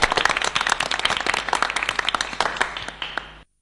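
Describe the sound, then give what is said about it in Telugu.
An audience gives dense, steady applause for schoolchildren who performed poems, songs, skits and speeches at a school programme. The clapping stays loud throughout and then cuts off abruptly. “మరి మన అందరం కలిసి ఒకసారి అభినందించండి చప్పట్ల ద్వారా.”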